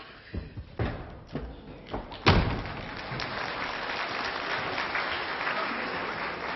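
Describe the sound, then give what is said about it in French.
Doors slamming: a few separate thumps build to one loud, sharp slam, followed by a steady background hiss with no voices. “Qu'est-ce qui fait claquer les portes comme ça?”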